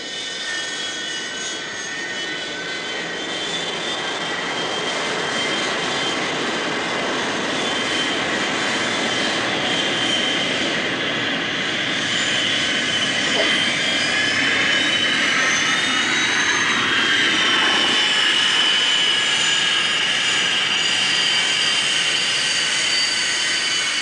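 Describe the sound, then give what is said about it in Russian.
An airplane comes in to land with a continuous jet engine roar and a high whine running through it. The noise holds steady for the whole stretch and grows slightly louder toward the end. “Самолет идет на посадку.”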